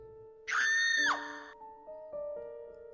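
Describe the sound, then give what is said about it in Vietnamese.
A woman screams loudly, one long high-pitched shriek of about half a second that drops sharply in pitch as it ends, followed by steady quieter tones. “Cô lập tức hét toáng lên.”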